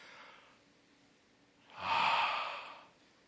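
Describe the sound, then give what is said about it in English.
A single deep breath in, a long airy inhalation that swells and then fades slowly, heard alone after a fainter, softer breath near the start. “Take a deep breath in.”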